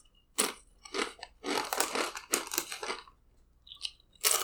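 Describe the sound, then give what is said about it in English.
Crunchy chewing of nacho cheese Doritos eaten as a palate cleanser during a beer tasting: many faint, irregular crisp crunches with short pauses, ending in a final few bites. “This is what's going to be my palate cleanser for this tasting. So let me just get a couple of these, just so I don't forget, for my next beer.”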